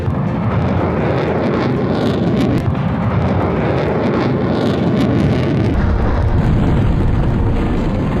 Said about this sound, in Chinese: 指挥员迅速下达发射指令，班组成员完成自动调炮并解算射击诸元，对目标实施火力打击。 3、2、1，放！